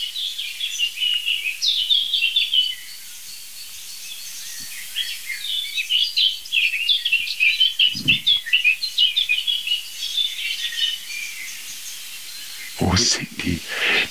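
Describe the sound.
A blackbird sings in warbling, repeated phrases broken by short pauses. A few low thumps cut in near the middle and again toward the end.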